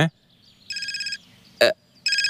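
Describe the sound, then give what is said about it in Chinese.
An electronic telephone ring in two bursts of bright, evenly pulsing high tones, the second cut off at the end, with a few other short noises in between. “我接个电话啊。”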